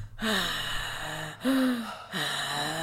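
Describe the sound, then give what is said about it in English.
A person imitates heavy mouth breathing with three long, raspy breaths, each with a sharp onset that tapers off, separated by brief pauses. “like, not wheezing, but he's just, like, breathing super heavily”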